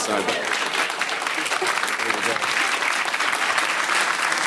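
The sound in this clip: Audience applause fills the whole stretch as a dense, steady wash of clapping, with voices mixed in.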